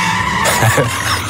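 Tires skidding as a learner driver brakes hard in a car, heard over an open phone line as a loud, broad, hissing screech lasting about a second with no clear break.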